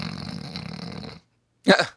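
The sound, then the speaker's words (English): A woman lying in bed imitates snoring with her voice: a rasping, droning breath of about a second, a short silence, then one louder snorting burst. “she's making snore sounds because she's so fucking bored”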